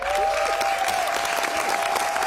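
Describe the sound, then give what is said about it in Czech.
Theatre audience in Kraków applauding at the end of a play: dense, sustained clapping that holds at an even loudness throughout, with a thin steady tone running faintly underneath. “I diváci v Krakově na konci představení dlouho tleskali.”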